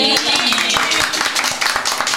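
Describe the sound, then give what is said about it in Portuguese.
Round of applause: many hands clapping in a dense, fast patter of sharp bursts, fairly loud and continuous, with voices mixed in. “Salva de palmas. Você sabe bater palmas?”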